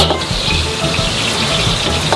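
Duck stir-frying in a wok, with soy sauce and sugar added, gives a loud, steady sizzle and crackle that carries on without a break. No voices are heard.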